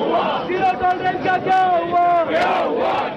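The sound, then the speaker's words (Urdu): Opposition members chant slogans loudly as a parliament session closes on its last day, after days of uproar. Many voices ring out together in rhythmic unison, rising and falling in repeated bursts over a crowd din. “Parliament میں پہلے روز سے ہی ہنگامہ ہوتا رہا اور آج آخری دن بھی اجلاس کا اختتام نعرے کے ساتھ ہی ہوا۔”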